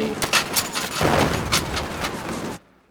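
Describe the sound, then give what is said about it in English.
Machine gun fire, a fast run of sharp, crackling bursts lasting about two and a half seconds before stopping abruptly. “Well, give me that machine gun. Here, take my machine gun. Here. Shoot, shoot.”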